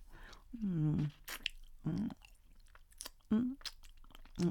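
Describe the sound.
Fingers are licked wet, with quiet, wet mouth smacks and sucking sounds. A few soft hummed vocal sounds are mixed in.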